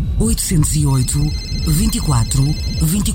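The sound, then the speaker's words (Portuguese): A mobile phone ringtone sounds as thin, steady high tones beneath overlapping voices of people talking in a household scene, with the talk louder than the ring. “Mãe, o telemóvel.”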